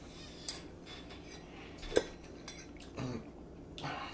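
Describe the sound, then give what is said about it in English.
Cutlery and dishes clink faintly during a meal of homemade chicken a la king cooked in a crock pot, with a few soft metallic taps over quiet background noise. “we're sitting here eating chicken a la king that you made homemade.”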